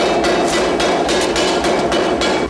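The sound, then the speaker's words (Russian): Heavy, loud hammering from a forging press hammer striking metal in a smithy, with repeated irregular blows over a continuous dense metallic clatter. “работает на кузнечном прессе молоте”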